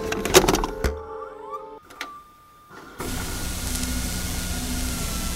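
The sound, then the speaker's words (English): A videotape is pushed into a tape player and play is pressed: mechanical whirring and clicking, then a sharp click, a short pause, and a steady hiss as playback starts. “I pushed the tape back into the machine and pressed play.”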